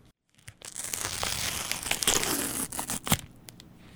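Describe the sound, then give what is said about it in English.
A food package is torn open, giving a faint, continuous crinkling and ripping of wrapper material for a few seconds with a few sharper crackles near the end. “All right, I've opened up the package”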